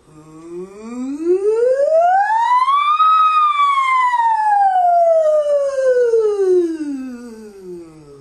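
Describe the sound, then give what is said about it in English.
A single voice imitates a siren in one breath, its loud, smooth tone gliding steadily upward for about three seconds, then sliding back down to the bottom over roughly five seconds. “Let's start with a siren. We're going to move from the bottom of the range to the top and back down to the bottom. And a single breath, it sounds like this.”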